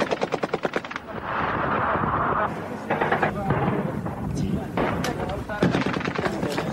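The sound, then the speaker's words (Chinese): Artillery shelling and machine-gun fire in a war zone, a loud, dense barrage of rapid cracks and heavy booms running without pause. “现在正在炮击当中，媒体记者在这边躲掩蔽，情势相当的危急。”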